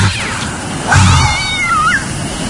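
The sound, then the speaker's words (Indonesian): A cat meows in a drawn-out, wavering cry that swells in the middle and slides downward near the end, heard over a constant noisy hiss. “aku dikagetkan dengan seekor kucing yang tiba-tiba saja melintas di depanku.”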